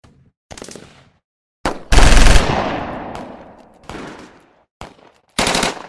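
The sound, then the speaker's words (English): Gunfire from a police gunfight with a gunman holed up in a bungalow in New Zealand: several loud shots and short bursts. One heavy blast rings out with a long, fading decay, with gaps of silence between the volleys. “A gunfight ensued,”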